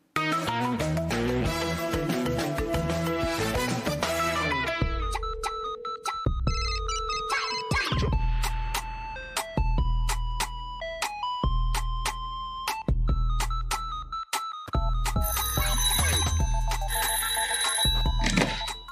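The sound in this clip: Melodic electronic ringtone signalling an incoming phone call, a loud run of bright synthetic notes that starts dense and chord-like, then continues as sparser separate tones, with no voices.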